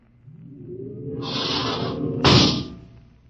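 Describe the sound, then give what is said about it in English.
An outer airlock door opens with a hissing whoosh that swells gradually, then bursts into a sharper, louder rush of air before fading away. “open the outer airlock”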